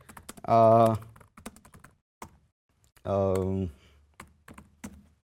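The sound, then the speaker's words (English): Scattered keystrokes on a computer keyboard while a database command is entered, heard as a few sparse, light clicks spread across the moment, with two short voiced sounds between them. “if I can type, there you go.”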